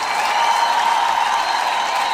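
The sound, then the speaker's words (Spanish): Audience applause at a radio show: a continuous wash of clapping with a faint crowd murmur. It holds at an even level throughout, with no break. “¡Aplausos, Ángela!”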